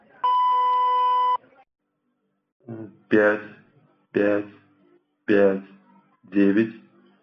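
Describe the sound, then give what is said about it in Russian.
A single steady electronic beep, about a second long, from Sberbank's robotic card-number entry system over the phone, followed after a pause by a voice speaking five short, separate bursts. “Роботизированная система фиксации Сбербанка подключена. После сигнала произнесите номер карты.”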